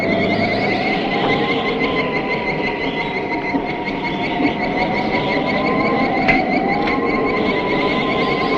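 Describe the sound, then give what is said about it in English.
A giant ant's screeching effect from a monster film: a continuous, shrill, wavering squeal with steady high tones that holds for the whole clip. One voice gives a brief exclamation. “And every time the ants are close, you hear that sound that they make.”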